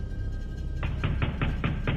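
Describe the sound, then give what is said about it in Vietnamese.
Loud banging on a door: six rapid, evenly spaced heavy knocks that follow a short quiet stretch with a faint steady hum. “Chợt những tiếng đập cửa rầm rầm vang lên.”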